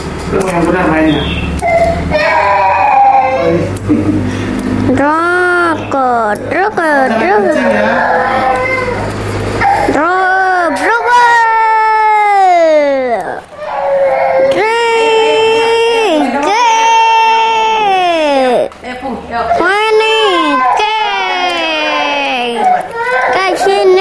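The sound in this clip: A child cries loudly and without letup, in long wavering wails that rise and fall in pitch and are broken by sobbing breaths.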